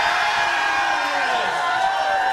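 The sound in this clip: A quiz-night audience cheers and whoops to vote for a team. Loud, continuous crowd noise with mingled voices holds steady throughout.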